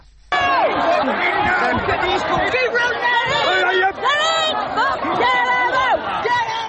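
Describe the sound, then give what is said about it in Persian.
Rioters attack a hotel housing migrants in Britain: a dense crowd shouts and yells at once, with overlapping voices rising and falling in a continuous angry din. “این صدای حمله کنندگان به یک هتل مخصوص مهاجران در بریتانیا است.”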